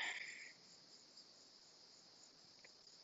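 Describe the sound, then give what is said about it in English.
Cicadas buzz after a small rainstorm in a faint, continuous high-pitched drone. A brief, brighter burst of chirping sounds at the very start before the even insect hum settles in. “Don't know if y'all can hear the cicadas, the frogs. There was a little rainstorm, so they're all out.”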